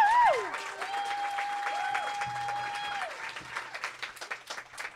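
An audience applauds to welcome a guest onto a stage, a dense steady wash of clapping that thins toward the end, with sustained gliding tones at the start.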